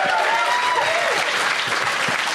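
Audience applause, a dense, loud wash of clapping that stays steady and continuous from start to end.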